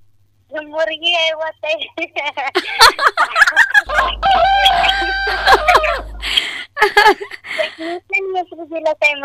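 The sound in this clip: Chickens cluck and a rooster crows among kept poultry, the rhythmic clucking and a long, drawn-out crow rising over people talking.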